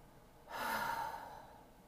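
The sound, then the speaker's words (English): A single deep breath drawn in during a guided breathing exercise: soft, breathy rushing noise that swells suddenly, holds for about half a second, then tapers off slowly. No one speaks. “I want us to take a deep breath.”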